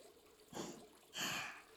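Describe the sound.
Water poured over someone's back while washing them, heard as two short splashing gushes with a pause between, the second louder and longer.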